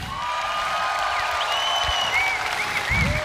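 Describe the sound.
A concert audience applauds as a guitarist is introduced, with dense, steady clapping that holds at an even level across the whole stretch and no voice on top.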